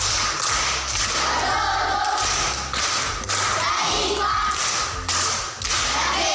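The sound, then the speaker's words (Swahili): Applause for an aunt at a primary school riddle session: dense, steady clapping from a group that continues throughout, with brief dips in loudness. “Makofi kwa shangazi.”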